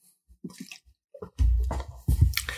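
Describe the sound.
A sip of water: soft wet mouth clicks, then louder gulping and swallowing noises, with no talk.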